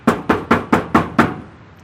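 Six firm knocks on a small blue door, evenly spaced and loud, each with a short resonant decay, followed by a brief silence.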